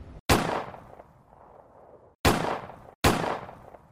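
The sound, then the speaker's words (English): Three rifle shots ring out far off in a film scene, each a sudden loud crack with a long decaying tail. The first stands alone, and the last two follow close together near the end. “I hate that too, because you hear like a rifle off in the distance,”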